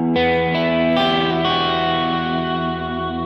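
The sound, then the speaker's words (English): Electric guitar notes are played through delay and reverb during a solo. Four notes are struck in quick succession and blend into a sustained, shimmering wash of echoes that rings on and slowly fades. “if I add a little bit of, you know, delay and reverb back into this”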